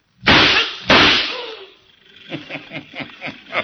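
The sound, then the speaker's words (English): Gunshots ring out as a guard is shot during a bank robbery: two sharp, loud blasts about half a second apart, each with a brief decaying tail, then softer, irregular sounds. “It was a guard. It's a corpse now. Oh, that sure was good shooting”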